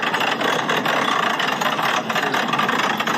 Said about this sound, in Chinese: 请问驾驶员，这个油门踩的真的是非常的轻柔。